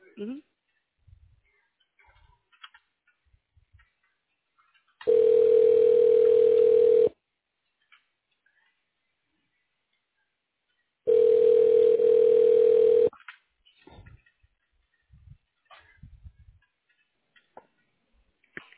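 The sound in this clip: Telephone line ringing while a call is transferred to voicemail: two long, steady, mid-pitched ringback tones separated by several seconds of near-silence broken only by faint clicks and ticks.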